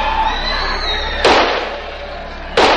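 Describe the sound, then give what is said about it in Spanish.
A security guard's pistol fires at an approaching zombie in a horror-comedy film scene. Two sharp, loud bangs stand out over a continuous, noisy background. “Dispara a un zombi que se acerca dándole muerte”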